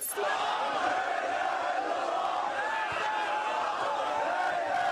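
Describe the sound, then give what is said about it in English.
Crowd roar from citywide demonstrations in Alexandria, Egypt, during the uprising against President Mubarak: a dense, continuous mass of many voices shouting together, loud and unbroken from start to finish. “Here's the sound of citywide demonstrations in the city of Alexandria.”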